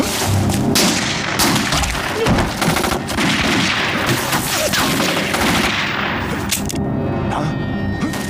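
Rapid, sustained gunfire in a dense, loud barrage of many shots with heavy thumps, continuing without pause for the whole stretch.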